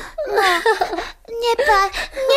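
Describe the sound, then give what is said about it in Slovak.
A child cries and whimpers in wavering, high-pitched sobs that come in two long bursts separated by a brief pause. “Prosím ťa, neplač.”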